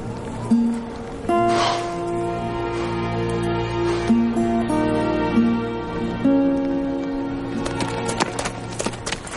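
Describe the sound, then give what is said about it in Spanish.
Hooves clip-clop as a horse is ridden onward in a Western mountain scene, a rhythmic trotting beat running through the whole clip beneath a sustained orchestral score, with a few louder hoof strikes near the end. “continúa cabalgando hacia el frente.”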